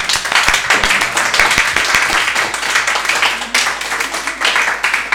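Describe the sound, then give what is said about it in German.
Applause from an audience after an entertainer's set: many hands clapping in a dense, steady patter that runs for about five seconds with only a slight dip midway. “Ich würde jetzt mal klatschen.”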